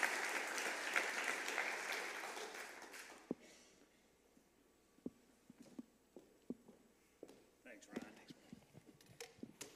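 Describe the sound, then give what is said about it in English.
A church audience applauds at a morning service to welcome the head elder, a loud burst of clapping that fades away after about three seconds, leaving a few faint scattered knocks. “Back by popular demand, would you put your hands together”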